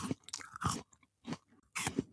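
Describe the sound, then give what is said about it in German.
A person snacking, chewing and crunching food with several quiet, crisp bursts of mastication separated by brief pauses. No talking is heard. “du musst jetzt dein Essen kurz unterbrechen, weil wir machen jetzt mal Podcast. Du sitzt schon wieder hier und schnabulierst irgendwas.”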